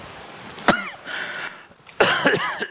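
Dry retching and gagging from someone whose throat has been bothering them come in two harsh, throaty bouts separated by a quieter stretch, the second bout louder and more drawn out.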